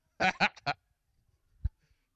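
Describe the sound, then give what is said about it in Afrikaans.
Three harsh honking bird calls come in quick succession, the cries resembling a guineafowl. A faint low thud follows after a short pause. “Is dit klink soos 'n tarantaal. Vang hom, vang hom.”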